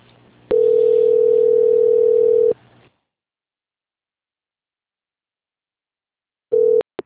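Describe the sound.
A telephone line tone sounds while a call is being transferred: a steady single-pitched tone holds for about two seconds and then stops. After several seconds of silence, a brief repeat of the tone and a sharp click follow.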